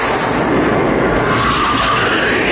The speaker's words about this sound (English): Here comes the boom. There it is. That sound. Oh, that's what it sounded like? Yep. Wait, did those guys not know what a sonic boom was until he did that?